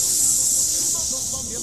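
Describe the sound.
Air hisses out of a balloon punctured by a cactus: a loud, continuous, high-pitched hiss that eases off slightly over less than two seconds.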